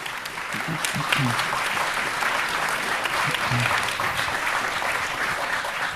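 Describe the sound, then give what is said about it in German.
An audience applauding on stage, dense steady clapping that runs the whole time, with a few voices faintly under it. “Also gut, ein Applaus für Twi.”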